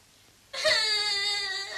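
A young child cries in one sustained, high-pitched wail. It bursts in suddenly after a short quiet stretch and holds steady and loud to the end.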